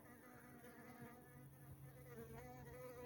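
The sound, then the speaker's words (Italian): Bees, hoverflies and bumblebees feeding on hawthorn and wild sage blossoms, a faint continuous buzzing of many overlapping insect drones whose pitches waver and drift. “Ecco, questo è il rumore incredibile di tutte le api sirfidi bombi”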